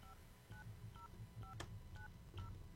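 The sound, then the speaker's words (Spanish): Telephone keypad tones dial a number for a radio prize-giveaway call on a rainy Friday: a brisk run of several short, clear dual-pitched beeps, evenly spaced over a faint low hum. “Estamos marcando.”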